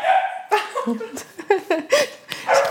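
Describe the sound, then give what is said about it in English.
Dogs barking while playing in a living room, several sharp barks and higher yips in quick, uneven bursts, fairly loud throughout. “Pardon the barking in the background. We have adorable dogs playing in the living room because we're real people.”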